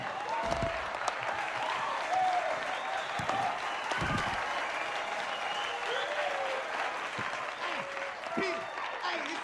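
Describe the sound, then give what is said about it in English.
Audience cheering and applauding at a live stage show. Dense, steady clapping mixed with shouts fills the whole clip at an even, loud level. “The black audience cheer and applaud.”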